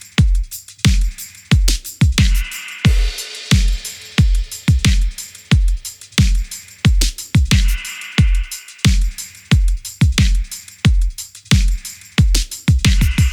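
A drum groove played against a low bass line, its sharp drum hits driving a steady, repeating pattern with brief gaps between phrases, loud and punchy with no voices.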